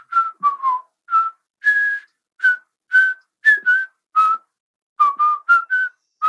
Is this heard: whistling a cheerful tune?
yes

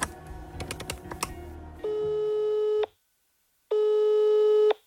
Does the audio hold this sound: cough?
no

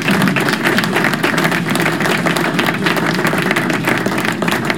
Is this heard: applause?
yes

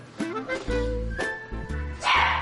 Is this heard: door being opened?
no

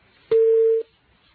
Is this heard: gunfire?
no

